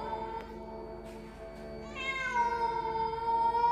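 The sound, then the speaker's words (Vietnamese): A cat meows in the night, a single long, drawn-out yowl that rises in pitch and then holds strong to the end, over a steady low droning tone. “Có tiếng một cái gì đó kêu lên trong đêm tối, giống như là tiếng một con mèo kêu giữa đêm vắng vậy.”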